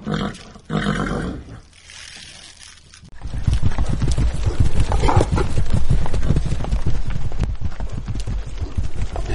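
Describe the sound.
Horse hooves clip-clop as a saddled horse is ridden, a dense run of hoofbeats over a loud roaring rumble that grows louder a third of the way in and stays loud to the end.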